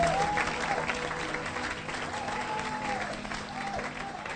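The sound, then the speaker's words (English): Applause from an audience at a church healing service, dense, steady clapping that holds at an even loudness through the whole clip, with faint voices beneath. “Can somebody clap for Jesus online?”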